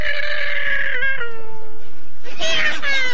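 A cat meows loudly in two drawn-out calls. The first is long and tonal, sliding lower in pitch, and the second is harsher and more rasping.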